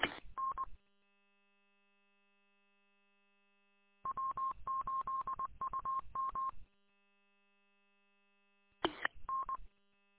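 DTMF touch-tone dialing sent over a radio link: a brief cluster of beeps, a pause, then a long rapid string of tones, and after another gap a final short pair, with a faint steady hum underneath.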